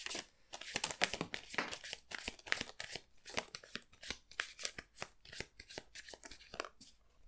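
Playing cards are shuffled in a quiet, continuous run of many crisp, papery riffles and snaps, uneven in rhythm, with no talk.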